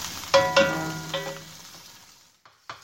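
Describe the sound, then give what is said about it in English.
Broccoli cooks in a pan on a medium stove burner. A few ringing metallic clinks from the pan sound over a soft sizzle that fades, followed by faint taps. “I don't use the hot burner. I use like a medium burner. All right. The broccoli is cooking.”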